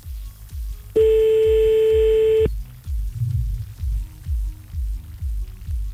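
Ringing tone of an outgoing telephone call: a single steady, mid-pitched beep lasting about a second and a half, set against a low, pulsing rhythmic beat.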